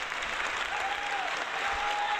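Applause sound effect: a dense, steady wash of many hands clapping that holds at an even, fairly loud level for the whole stretch without breaks.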